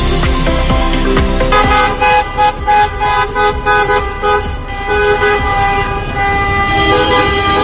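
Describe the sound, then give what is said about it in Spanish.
Street-market vendors' vans honk their horns in a protest through a Pontevedra city centre. A loud, sustained blare gives way to many rapid, repeated toots layered over continuing horn tones. “Este era el sonido de las furgonetas de los vendedores ambulantes del Mercadillo de Pontevedra”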